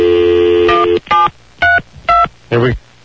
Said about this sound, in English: I'm going to call your girlfriend now. This is the number in area code 732. Yep. Okay, let me dial her up.